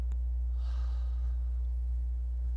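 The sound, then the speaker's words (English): A church audience drawing one deep breath together during a sermon: a soft, breathy rush that swells and fades within about a second, faint beneath a steady low hum. “Everybody take a deep breath and go,”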